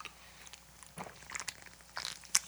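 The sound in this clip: Someone chews toffee in faint, irregular bursts of soft crunches and sticky mouth clicks, with no talk.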